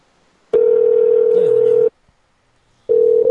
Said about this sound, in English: That's really funky ringing going on there.